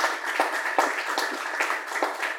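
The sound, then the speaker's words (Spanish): An audience applauds panelists at a panel discussion, a moderate wash of clapping with scattered sharper individual claps throughout. “Démosle un aplauso, por favor, a nuestros panelistas. El aplauso es para ustedes también, que vinieron hoy acá.”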